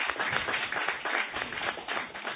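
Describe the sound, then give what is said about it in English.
Clapping from an audience at a Ghanaian sponsored programme: dense, continuous hand claps of fairly even loudness throughout. “Shall we give all these people a big round of applause?”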